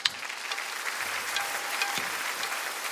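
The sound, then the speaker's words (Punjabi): An audience applauds three singers after their heartfelt singing, with a fairly faint, even clatter of many hands clapping that stays steady from start to finish. “ਪੂਰੀ ਲੁਕਾਈ ਦੀ ਸੁੱਖ ਮੰਗਦੇ ਇਹਨਾਂ ਤਿੰਨਾਂ ਵੀਰਾਂ ਦੀ ਭਾਵ ਪੂਰਤ ਗਾਇਕੀ ਦੇ ਲਈ ਇੱਕ ਵਾਰ ਆਪਾਂ ਰਲ ਕੇ ਜ਼ੋਰਦਾਰ ਤਾੜੀ”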